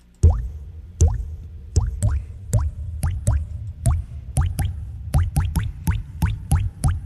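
Water drips from a plumbing leak: many separate plops with a quick upward chirp in pitch, falling at an irregular but steady pace and coming closer together toward the end, clear and alone.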